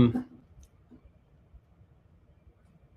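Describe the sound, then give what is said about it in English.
A single sharp computer mouse click at the start, followed by near quiet with a faint low background hum. “Okay, now once I click”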